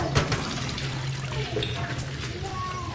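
Water splashes and pours as clothes are washed by hand in a bathroom, a steady, even wash of running and sloshing water that continues without pause.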